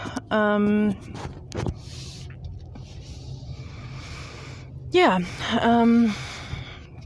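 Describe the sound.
Low, steady rumble inside a moving car, with a person talking over the cabin drone throughout.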